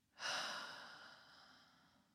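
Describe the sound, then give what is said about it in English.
One slow, deep breath during a guided breathing exercise. Its airy rush swells quickly, then tapers gradually over about two seconds, with no voices present. “And breathe in. Breathe out.”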